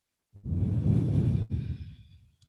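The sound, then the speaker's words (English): A deep exhale during a yoga forward bend: one long, breathy outbreath, briefly broken midway, then tapering off quietly. “And then bow forward, breathe all the way out.”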